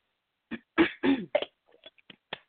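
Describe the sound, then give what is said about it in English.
Someone clears their throat in a few rough, gravelly bursts, then gives several fainter, shorter rasps. The sound is quiet, with no talk over it. “I have something in my throat I can't clear. Okay, hopefully that shifted it.”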